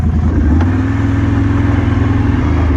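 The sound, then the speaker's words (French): A quad bike engine running on a bison farm, a loud, steady low throb with rapid rhythmic pulsing that holds evenly throughout, with no voices. “Allez, on remonte sur le quad et puis on va aller voir les bisons.”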